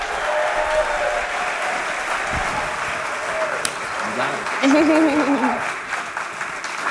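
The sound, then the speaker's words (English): Applause from a church audience as a speaker comes to the stage: sustained, even clapping throughout, with voices heard over it and a brief swell near the middle. “I want you to clap, snap. I want you to amen her. And I want you to help her feel like $1 million as she comes to the stage.”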